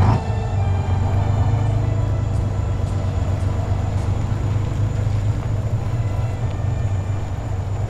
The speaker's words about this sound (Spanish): Vámonos, soldados. Rápido, camión en marcha.